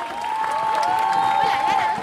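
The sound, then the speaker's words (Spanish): Applause from a crowd at an event tied to a federal education march, cheering a young organiser: clapping swells and holds, with cheering voices audible over it. “quiero que le demos un gran aplauso.”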